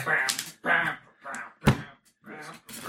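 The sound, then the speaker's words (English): A hand slams once on a table, giving a single sharp thud between stretches of people talking. “Please do not slam on the table.”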